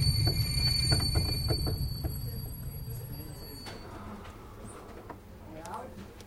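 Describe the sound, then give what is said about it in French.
A train pulling into Avignon station, a low rumble with steady high-pitched whines that gradually fades as it slows, with a few scattered clicks and knocks. “On doit arriver dans le nord de la France. Nous sommes seulement en gare d'Avignon.”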